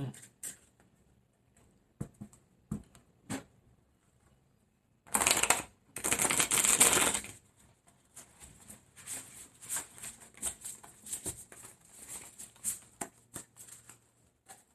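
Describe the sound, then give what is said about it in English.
Shuffling a deck of cards for an eight-card reading: scattered light taps and clicks, two loud riffling bursts in the middle, then many soft card snaps and flicks, with no talk. “Now, let me go ahead and get to the main shuffle. I'm going to take eight cards.”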